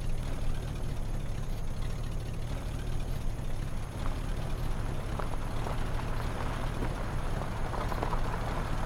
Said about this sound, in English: Guayava enters the taxi.